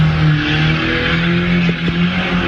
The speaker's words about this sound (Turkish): Otomobiliyle drift attı.